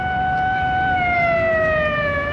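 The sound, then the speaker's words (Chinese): Police car sirens passing on a street in Hong Kong: loud, sustained wailing tones whose pitch slides gradually downward over a steady rumble of traffic. “说话间，街上一对警车呼啸而过，肖啸天忙指给齐长鹏看”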